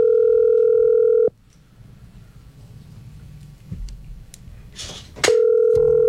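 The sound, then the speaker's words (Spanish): Telephone dial tone heard while a call is being placed: a steady, continuous mid-pitched tone that cuts off abruptly, gives way to a few seconds of low background noise, then returns just as steady. “Esperemos a ver si le entra la llamada.”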